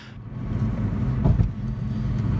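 A car on a road gives a steady low drone of engine and tires. The drone swells briefly near the middle, then settles back to an even hum, with no voices.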